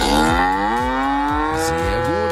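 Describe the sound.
A cow moos with a long, deep, harmonic bellow. It comes from cattle grazing reed-overgrown wetland in a nature reserve. The call is loud and continuous throughout.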